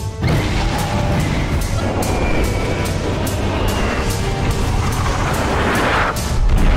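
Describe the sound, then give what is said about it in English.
Bombs explode over a civilian colony in a Star Trek fan film set in the Romulan War: a loud, sustained roar of crashing blasts and booming impacts, with repeated bursts rising out of continuous rumble. “A beautiful summer's morning on Alpha 3, and not a cloud in the sky. Just bombs. There was no warning whatsoever.”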